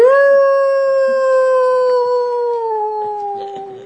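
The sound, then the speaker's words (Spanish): A wolf howls in one long, loud, steady tone that drifts slightly lower toward the end before cutting off. “Aullaba el lobo. Lloraba.”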